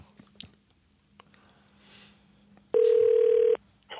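An outgoing telephone call rings out: faint clicks and blips, then one loud, steady ringback tone lasting under a second, a short pause, and the tone starting again.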